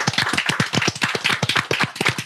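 Applause for the live video editor: many quick claps in a steady, dense patter with even loudness, no voices over them.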